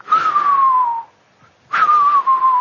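A Korean woman sea diver's whistling breath on surfacing: two long, loud, breathy whistles, each about a second and gliding slightly downward in pitch, separated by a short pause.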